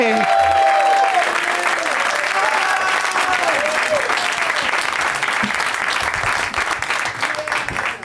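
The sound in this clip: Audience applause welcoming three guests onto a stage: dense, sustained clapping throughout, with a host's voice speaking over it at the start.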